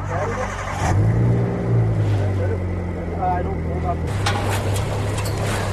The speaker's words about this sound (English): let's crank her up and try her out, see if this paddle's going to turn